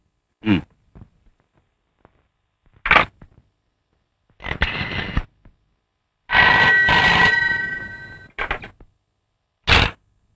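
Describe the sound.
A landline telephone call being placed: a few short, sharp mechanical bursts spaced across several seconds, with a longer ringing stretch in the middle and a final short ring.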